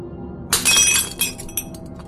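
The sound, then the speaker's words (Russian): Glass bottle filled with spirit slips from hands and shatters, a sharp crash of breaking glass after half a second followed by a few scattered tinkling clinks over a faint low background hum. “Бутылка выскользнула из моих рук и разлетелась вдребезги.”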